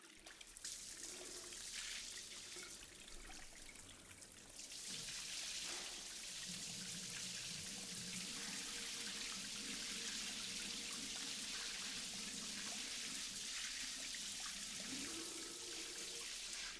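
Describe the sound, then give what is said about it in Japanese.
Water runs from a tap to rinse hair during a hair wash, a faint, steady spraying hiss that grows fuller after a few seconds and continues unbroken. “では一旦流しますね。”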